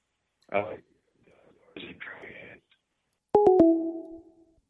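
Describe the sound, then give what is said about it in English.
A phone line goes dead as a caller hangs up: after a few bits of talking come three quick clicks and a fading electronic tone. “Did I just get hung up on? Because I asked him about a Dungeons and...”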